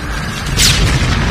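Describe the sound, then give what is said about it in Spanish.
An explosion in a film, set on water near a motorboat, bursts once midway as a single loud blast with a rushing hiss, over a continuous low rumble. “El detective se cubre de la explosión.”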